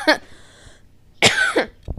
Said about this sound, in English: Excuse me. I just choked.